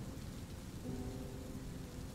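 Heavy rain pours in a dense, continuous hiss under a low, rolling rumble of thunder. The sound is fairly quiet and even throughout, with no voices.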